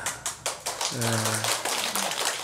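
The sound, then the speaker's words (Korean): Lecture audience clapping, a quiet run of sharp, evenly spaced claps in quick succession, with a voice speaking over part of it. “또 뭐 좀 말씀이 괜찮았는가 박수를 다 치시네.”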